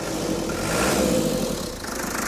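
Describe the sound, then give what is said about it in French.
A car engine, fitted with an aftermarket turbo, is started with the starter and heard as a steady mid-pitched running rumble that swells briefly, then settles into an even idle. “Il y a quelques boutons en plus, un coup de démarreur.”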